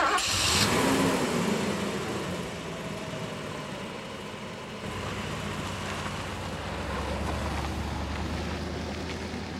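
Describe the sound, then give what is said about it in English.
A car engine drones steadily with a low mechanical rumble and broad noise, dipping briefly midway before a deeper, even hum carries on to the end; no voices. “Now let's hear the car come back.”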